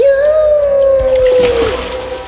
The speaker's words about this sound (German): Und nun komm, hab keine Angst. Spring zu mir ins Wasser. Und jetzt, hopp.